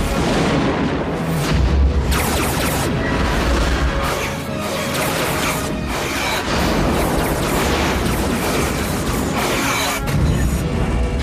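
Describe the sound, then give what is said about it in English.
Starship weapon fire from a fleet attacking the Borg cube in Star Trek, loud and dense, with many booming blasts and crashing bursts that keep overlapping, briefly easing midway before building up again. “The Borg's vast, dark and ugly cube ship rotates above the Earth as the fleet fires at it, turning fast to dodge its defensive green lasers.”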